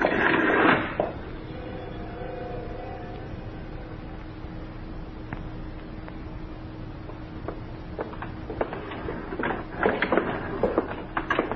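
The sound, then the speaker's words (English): An elevator arriving and then descending to a basement garage: a short thump opens, followed by a steady mechanical hum with faint whining tones. It ends in a cluster of sharp clicks and rattles. “Here's the elevator now. Basement garage, Joe.”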